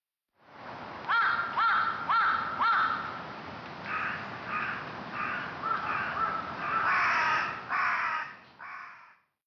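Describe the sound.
Crow cawing in a long series of loud, harsh calls: a quick run of sharp caws first, then a stretch of rougher, drawn-out caws continuing to the end.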